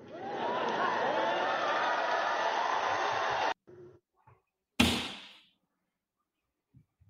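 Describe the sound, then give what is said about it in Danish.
A single loud gunshot fired outside: a sharp crack that rings and fades over about half a second. It follows a stretch of dense, continuous noise that cuts off abruptly, and a few faint knocks trail after it. “Jeg ved ikke, hvad det var for et skud, der lød her til sidst.”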